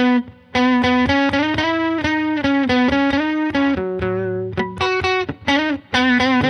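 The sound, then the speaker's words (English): An electric guitar plays a solo melody through a distortion effect, with a thick, buzzy, sustained tone moving through a series of held notes and quick changes, with no talking. “you got a great feel on the guitar.”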